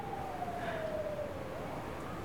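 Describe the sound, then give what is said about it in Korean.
Police car siren wailing faintly over steady background noise, its tone gliding slowly downward in pitch. “사이렌 소리가 그치지 않았는데”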